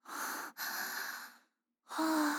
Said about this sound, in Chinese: 深呼吸，别喘了。